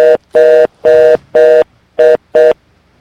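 A telephone line tone after a dropped call: six steady electronic beeps, each about a third of a second long, evenly spaced with short silent gaps, clear and alone.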